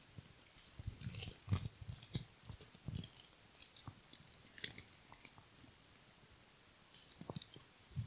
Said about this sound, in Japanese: 食べちゃおうかな。